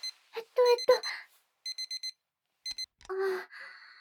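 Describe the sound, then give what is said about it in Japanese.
An electronic alarm clock beeps in short, high, evenly spaced pulses: a run of four quick beeps, then a pair, with soft breathy vocal sounds before and after. “そっか、アラーム”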